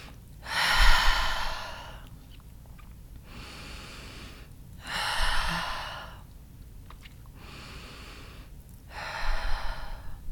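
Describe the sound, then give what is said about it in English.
Slow, deep breathing during a guided meditation, in through the nose and out through the mouth: three long, breathy exhalation swells rise and fade at even intervals, with quieter inhalations between them and no talking. “we'll take a few deep breaths together. In through our nose and out through our mouth.”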